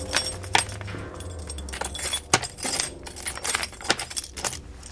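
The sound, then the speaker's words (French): Keys jangling as a secret key is brought out to open a safe, with many bright metallic clinks and rattles in uneven bursts and no voices. “So, maintenant, je vais utiliser le clé secret pour ouvrir le coffre-fort.”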